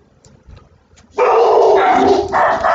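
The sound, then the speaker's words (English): Dogs barking: a loud, continuous burst of barking and yelping begins after a quiet opening and carries on to the end, with one short dip partway through. “There's the dogs.”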